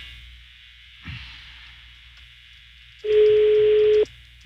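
Ringback tone of an outgoing prank phone call: a single steady, low beeping tone lasting about a second, loud above faint line hiss.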